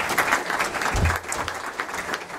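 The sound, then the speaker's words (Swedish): Audience applause at a Swedish panel event, a dense, steady wash of many hands clapping that continues evenly throughout without voices. “Men en applåd för Martin också.”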